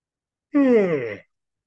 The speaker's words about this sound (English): One more yawn.